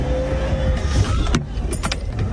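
Vehicle noise as a stolen tow truck drives off and wrecks another vehicle: a steady rumbling engine roar with a few sharp clanks and knocks in the second half.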